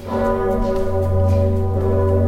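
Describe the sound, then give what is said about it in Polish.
A large historic church bell, rung by a team of twelve ringers pulling ropes, sounds alone as a loud, steady, resonant tone with a rich, sustained hum of overtones and no separate strikes. “Dzwon Zygmunta jest jednym z piękniejszych instrumentów. I to wszyscy podkreślają, turyści dzisiaj, którzy przyjeżdżają i słuchają tego dzwonu, jak my kończymy pociągać za sznury”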